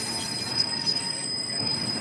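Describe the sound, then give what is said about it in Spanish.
A train passing, with a steady rolling rumble under a thin, high-pitched wheel squeal that persists throughout. “Está pasando el tren en este momento.”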